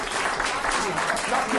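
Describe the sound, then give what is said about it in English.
Audience applause rolls on as a dense, steady wash of clapping through the whole short stretch, with voices mixed in beneath it. “Give him a round. Keep the applause.”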